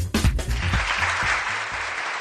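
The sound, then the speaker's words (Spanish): Audience applause greets the news that an art exhibition is arriving at a university hospital in Valladolid. Dense, steady clapping runs throughout at an even loudness, with a faint low hum beneath it. “Y este aplauso porque la exposición Art of the Road está llegando al Hospital Universitario Río Ortega de Valladolid”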